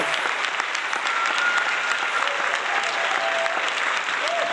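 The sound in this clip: An audience applauding to welcome a guest speaker at a talk event: a sustained, dense roar of clapping hands at a steady level throughout, fairly soft overall.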